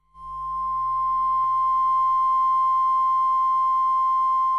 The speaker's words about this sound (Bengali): এই তো টোন পাচ্ছি, এইবার বাজবে সিগনেচার টিউন।